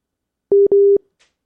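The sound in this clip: A busy tone after a dropped phone call: two steady, mid-pitched beeps at the same pitch, one shorter and one longer, then silence.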